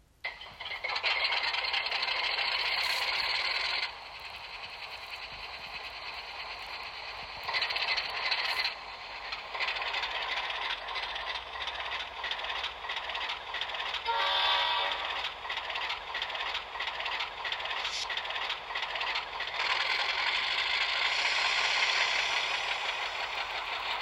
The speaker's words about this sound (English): This is a voice recording of a 40 class New South Wales diesel starting up and running.